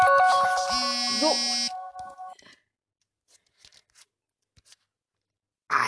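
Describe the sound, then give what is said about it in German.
A mobile phone ringtone from an incoming call: a loud electronic melody of layered buzzy and pure tones for under two seconds, cutting off abruptly, followed by a few faint scattered sounds and a final louder burst. “jemand hat mich gerade angerufen”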